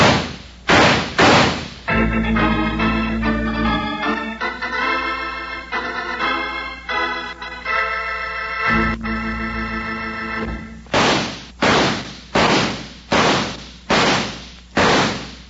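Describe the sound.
Revolver gunshots in a western showdown: a few sharp cracks open, a brassy musical sting follows, then a rapid run of about six evenly spaced, loud shots.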